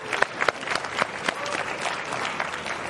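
Live audience applauding at the ASA 2023 meeting: dense, steady clapping through three seconds, with a few sharper claps standing out near the start.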